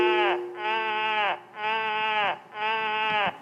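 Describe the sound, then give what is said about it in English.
Sheep bleat in a few long, quavering calls in close succession, each loud and nasal with a slight downward trail at its end, separated by brief pauses. “With all those animals around and sheep, you probably would have heard this.”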